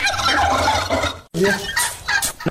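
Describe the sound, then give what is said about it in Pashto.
Turkeys gobble on a turkey farm in Takhar's Shakmosh district that raises birds for meat and eggs. A few loud, rattling gobble bursts come in quick succession, broken by a brief silent gap midway. “د تخار په شکمش ولسوالۍ کې یو ځوان د فیل مرغانو د روزنې فارم جوړ کړی دی.”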